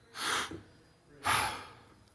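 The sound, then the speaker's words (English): Breathing in and then out: two soft, airy breath sounds, each about half a second long, separated by a short pause. “Every time I take a breath in, I speak half of his name. And every time I let that breath out, I speak the rest of his name.”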